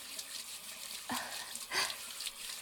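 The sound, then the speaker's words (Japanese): Hot water running during a bath, a faint steady rush broken by two brief, louder splashy surges. “お湯、ちょうどいいですか？”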